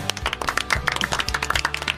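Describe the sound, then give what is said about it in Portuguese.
Applause from a studio audience at an interview show, made of brisk, distinct hand claps from a small group, with many sharp, irregular claps close together and fairly loud. “Primeiras palmas verdadeiras aqui.”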